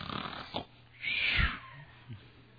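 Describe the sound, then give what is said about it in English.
A man's voice imitates the snoring of a minister on a church platform: one long rasping, whistling snore between a few shorter snorting breaths, moderately loud and with no talk over it. “Brother Street was snoring, and he was on the platform, somebody else was at the pulpit, and the speaker would say something, he'd go,”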